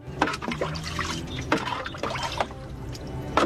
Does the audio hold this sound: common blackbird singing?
no